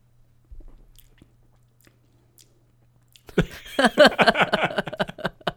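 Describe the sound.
A pickle-flavoured snack is cracked open with a few faint taps and clicks, followed by loud, crunchy biting and rapid chewing.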